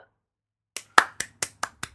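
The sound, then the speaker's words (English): Six sharp hand claps in an even, unhurried rhythm follow a silent pause, each one crisp and brief, like a lone slow round of applause. “Round of applause.”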